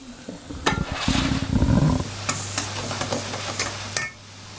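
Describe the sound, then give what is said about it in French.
Butter melting and bubbling in a pan with cooking apples gives a soft, steady sizzle. A louder stirring or scraping patch comes in the middle, with a few sharp clicks and a low hum underneath. “Là, il y a le beurre qui fond, là. Juste un peu bullé.”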